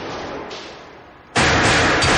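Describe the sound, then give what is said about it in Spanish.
Gunfire from an armored vehicle during a robbery shootout: a sudden, loud burst of shots erupts after a quieter stretch and continues as dense, sustained blasting. “Reciben disparos de un vehículo blindado que atasca la puerta. Jack responde al ataque.”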